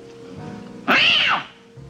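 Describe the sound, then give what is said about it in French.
A man's voice imitates a cat's meow: one drawn-out, tonal meow that rises and then falls in pitch, clearly louder than the low, steady background hum around it. “comme Marlène Dietrich chez Sternberg, Marlon Brando fait très bien Miaou”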